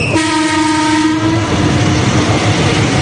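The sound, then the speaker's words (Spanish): A train horn sounds one long, loud blast as a train passes through the town of Alfafar in Valencia, followed by a steady, loud rumble of the train running on through. “Es el tren pasando por el municipio”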